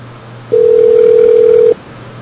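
A telephone call rings without being answered, heard as a single steady, loud ringback tone lasting a little over a second, with a faint low hum before and after.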